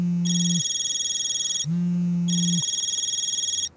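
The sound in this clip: Telephone ringing with an incoming call, an electronic ringtone that alternates a low tone and a high tone in a repeating pattern, ending with a short click.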